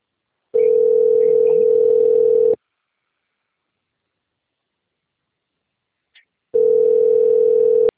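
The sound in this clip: Ringback tone of an outgoing telephone call: two long, steady, even-pitched tone bursts separated by about four seconds of silence, with a faint click just before the second.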